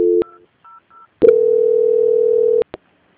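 Telephone tones sound during a call transfer: a short dual-pitched beep, then two faint brief beeps, then a long steady tone lasting over a second that ends in clicks.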